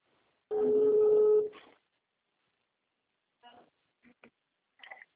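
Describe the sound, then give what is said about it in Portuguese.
A telephone dials a call: a steady tone sounds for about a second, then after a pause a few short, faint beeps follow in an uneven sequence. “Estou ligando para a Marcela.”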